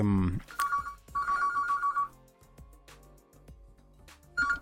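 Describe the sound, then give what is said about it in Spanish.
Bursts of an electronic phone ringtone sound repeatedly during a livestream, under ongoing talk. “Acá me están llamando en medio de un streaming.”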